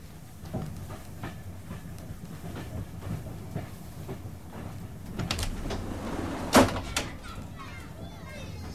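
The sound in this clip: Inside a moving train carriage, a steady low rumble runs throughout with soft rhythmic clicks, faint indistinct voices and a sharp clatter like a door near the end.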